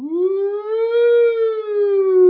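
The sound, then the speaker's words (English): A tornado warning siren in the Midwest wails a single sustained tone. Its pitch climbs slightly at the start and then holds level, rich in harmonics, loud and alone. “it is a siren, but it's not a police siren. They're tornado sirens.”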